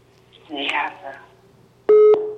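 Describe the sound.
Telephone tones sound as a caller's line drops on a phone-in line. Brief speech comes first, then a steady, loud electronic beep, and a second beep starts right at the end.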